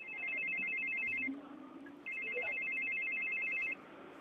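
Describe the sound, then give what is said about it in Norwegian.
A telephone ringtone sounds while a call is being placed. It gives two long, faint, high electronic trilling rings with a short pause between them. “jeg skal bare ringe litt her nå”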